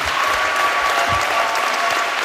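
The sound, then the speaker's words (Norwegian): Warm audience applause for a local tour company and its organiser at a sports club event. Many hands clap in an even, sustained roar at steady loudness with no breaks. “Gi alle en varm applaus til Destinasjon 70 grader Nord og Runar Johnsen.”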